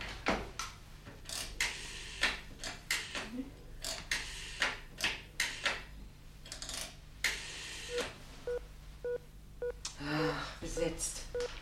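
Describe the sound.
A telephone number is being dialed, heard as a long run of sharp, uneven mechanical clicks lasting several seconds, followed by a few short tonal pulses near the end.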